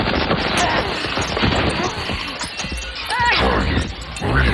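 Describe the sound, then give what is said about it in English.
Gunfire erupts in an action scene set in futuristic Arcadia City, 2063: a loud, dense barrage of sharp cracks and crashing impacts, with voices shouting over the din. “Cease fire! No one kills her but me!”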